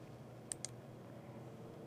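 A computer mouse clicks twice in quick succession, sharp and faint, while an administrator edits an AD access setting. A low steady hum is the only other sound.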